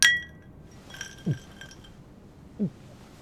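Glasses of iced tea and Long Island iced tea clink together in a toast at a host club. One bright, ringing clink is followed by a fainter one, with soft low thuds afterward.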